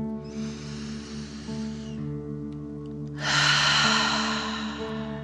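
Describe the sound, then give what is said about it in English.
Deep "dragon breath" exercise for children: a slow, airy inhale followed after a pause by a louder, forceful exhale through the mouth, over a soft, steady musical tone in the background. “pretending you are breathing fire. Ready? Deep dragon breath in and out.”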